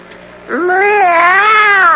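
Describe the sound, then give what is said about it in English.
A cat gives one long, loud meow that starts partway in, rises in pitch, then holds a steady, wavering tone to the end. “this is my friend, the cat. Meow.”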